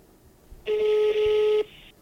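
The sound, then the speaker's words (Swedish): A single telephone dialing tone sounds as someone places a call: a steady beep lasting about a second that cuts off abruptly over faint background hiss. “Jag ringer pappa i ett försök att distrahera mig.”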